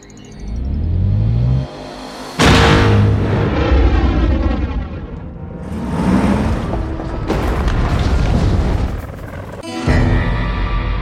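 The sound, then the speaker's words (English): Heavy blasting explosions go off after a fire-in-the-hole warning: a few deep, loud booms, each with a broad rumbling roar that lingers before the next blast. “Fire in the hole.”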